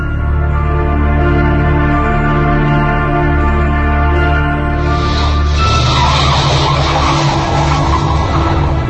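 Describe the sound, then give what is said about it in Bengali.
Police car braking to a stop in front of a school: a loud, steady engine drone with a harmonic whine gives way midway to a harsh, hissing tire skid that runs to the end. “Wiseman school and কলেজের সামনে একটা পুলিশের গাড়ি এসে থামল”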